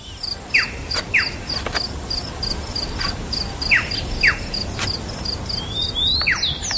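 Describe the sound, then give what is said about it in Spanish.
A little bird chirps several short, high, downward-sweeping notes in scattered pairs over a steady, shrill insect trill. “Pajarito.”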